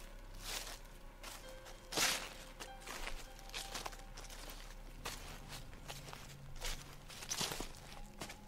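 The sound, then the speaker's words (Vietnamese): Light footsteps behind a house: several soft, unevenly spaced steps over faint background noise, with no talking. “Ở bên ngoài chợt có tiếng động, có tiếng bước chân nhẹ nhẹ ở sau nhà.”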